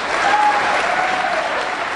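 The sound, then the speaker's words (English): Loud applause and cheering from state legislators, mostly Republicans, during a governor's address on workers' compensation reform; the clapping is dense and sustained at a steady level from start to finish. “The cheers at this point were largely from Republicans.”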